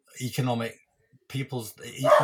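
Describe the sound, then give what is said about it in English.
A pet dog barks and yips in a few short, loud bursts separated by a brief pause, its calls sounding almost voice-like. “I do apologize. That's my dog making an important point there. He's questioning me on it.”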